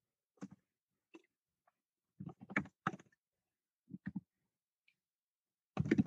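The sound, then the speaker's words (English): Keystrokes on a computer keyboard come in short, quiet clusters separated by silent pauses, ending in a denser run of typing. “Oh yeah, duh, I can type it right there, guys.”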